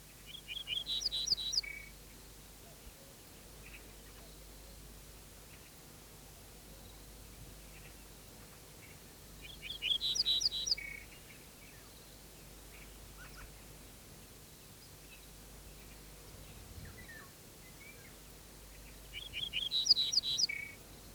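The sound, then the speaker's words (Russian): A garden bunting (ortolan) sings from a tall thistle stalk in a steppe gully: three brief bursts of high chirping notes about ten seconds apart, faint over a steady soft hiss. “С высокого стебля чертополоха снова запела садовая овсянка.”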